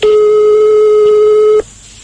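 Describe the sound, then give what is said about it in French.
A telephone ringing tone heard while calling someone's home: a single steady electronic tone, loud and alone, held for about one and a half seconds before cutting off abruptly. “Donc, on va appeler chez lui?”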